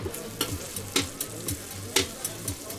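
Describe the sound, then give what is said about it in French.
Slices of eggplant frying in a pan hiss with a steady sizzle, while metal tongs turning them add many sharp, rhythmic clicks at fairly regular intervals. “il est en train de couper des tranches d'aubergines et en train de les faire cuire.”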